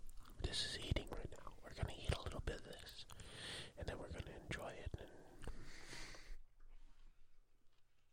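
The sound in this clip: Moist chewing of a garlic-flavored snack: many wet, smacking bites and crunches come in quick succession beneath soft whispered talk, then everything drops to near silence for the last couple of seconds.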